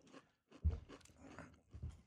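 Someone chews ghost pepper chips with quiet, crunchy bites and wet mouth sounds, a few louder crunches standing out from the softer, irregular chewing.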